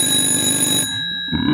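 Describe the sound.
A telephone rings with a steady, high, bell-like electronic trill that stays loud and then cuts off abruptly partway through.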